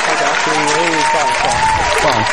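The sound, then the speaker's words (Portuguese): Applause for a prize draw winner, a steady crowd clapping that runs throughout while a man keeps speaking over it. “Palmas para o J.H. K-Roll.”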